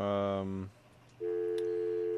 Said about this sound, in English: okay, that's our dial tone, our pulsing dial tone.